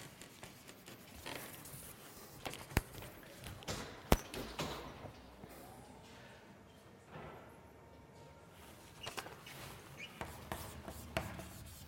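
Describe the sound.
Handwriting as a probability formula is written out: faint, irregular scratchy strokes with a few sharper taps, quiet throughout.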